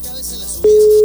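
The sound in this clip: The ringing tone of an outgoing phone call that goes unanswered: quiet line noise, then a loud, steady, pure tone that starts abruptly and holds to the end.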